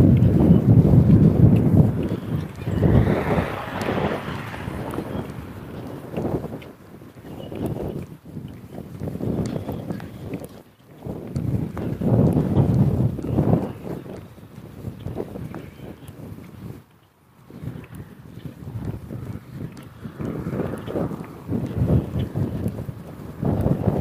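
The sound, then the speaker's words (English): Strong, cold wind blowing straight into the face of someone walking north: a loud, continuous buffeting rumble on the microphone that surges and eases in gusts, broken by two brief lulls. “It's right in my face. The wind is right in my face.”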